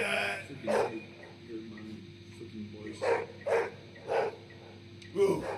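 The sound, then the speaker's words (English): Dog barking in short, separate bursts, a few sharp barks spread across the moment over a low, steady background hum. “Is that a dog barking? Fucking dog, bro.”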